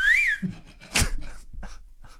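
A person whistling: one short, wavering whistled note at the start that rises and falls in pitch, followed by quieter background noise and a single sharp knock.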